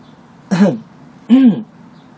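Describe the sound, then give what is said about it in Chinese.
A man clears his throat twice in a row, two short, gruff bursts about three quarters of a second apart, alone and fairly loud. “他双手颤抖，看着纸页，连着清了两次喉咙。”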